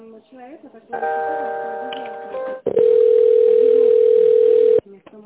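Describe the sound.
Telephone line tones while a call is transferred: first a held chord-like tone of several pitches, then a loud, steady single-pitch tone for about two seconds, with brief voices at the start and end.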